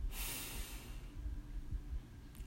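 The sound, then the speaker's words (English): A deep breath drawn in during a guided relaxation: one faint, long, airy inhalation at the start, then a low, quiet hush with no talking. “And now let's take a deep breath in, breathe in,”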